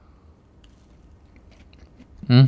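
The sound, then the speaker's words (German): One sudden, loud crunchy bite into a snack tasting of apple and cinnamon breaks a near-silent stretch right at the end. “Ich finde Essgeräusch ekelhaft. Du kannst es mal machen und dann entscheide ich mich, ob ich das dann rausschneide oder nicht.”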